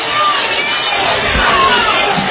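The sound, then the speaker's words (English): Football crowd yelling and shouting at the officials during a tied first-half game at night, a loud, steady roar of many voices that swells slightly in the second half. “They're yelling at the officials about something.”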